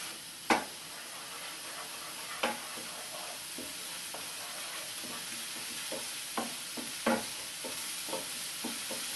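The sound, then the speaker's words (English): Onion, garlic, ginger and chilli fry in oil as a curry base while being stirred, giving a soft, steady sizzle broken by several sharp scrapes and clinks from the stirring. “onion, garlic, ginger and chilli mix is beginning to fry up in the oil. So you want to just keep on stirring until the mixture begins to brown and cook through.”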